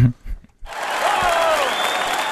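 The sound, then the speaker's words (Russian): Brief talk gives way to a burst of audience applause that starts suddenly and carries on as a dense, even stream of clapping to the end. “Аплодисменты? Да, да.”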